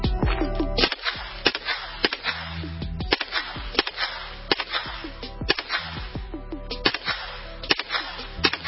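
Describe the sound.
Gunshots ring out at a shooting range as targets are fired on at 25 yards: many sharp, loud cracks in a fairly steady series, each cut off quickly, with no voices between them.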